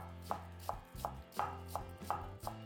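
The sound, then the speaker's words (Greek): Finely chopping white cabbage with a knife: a steady run of crisp, quiet blade strikes against the board at an even pace, each a short crunchy tap, over a low steady hum. “Λευκό λάχανο, επίσης ψιλοκομμένο.”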